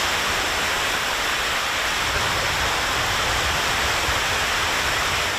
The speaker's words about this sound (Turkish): Burası Hürmüz Boğazı kıyısındaki Bender Abbas Limanı. Limanda bir yandan hayat normal akışında devam ediyor. Arkada gemilerin durduğu sahilde denize girenler var.